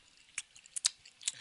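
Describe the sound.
Crunchy chewing of a spicy Kratz snack, a hard bread-like cracker, with a few crisp, irregularly spaced bites, faint and without talk.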